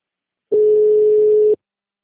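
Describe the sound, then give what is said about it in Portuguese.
A telephone busy tone after a dropped call: a single steady, mid-pitched beep lasting about a second, alone against silence. “Eu pedi para transferir no RH, mas acho que caiu a ligação.”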